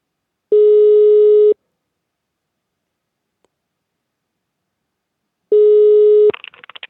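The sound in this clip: Ringing tone heard while placing a telephone call to a municipal administration office: two steady, even-pitched one-second tones separated by a long silence, the second tone cut short by a burst of clicks.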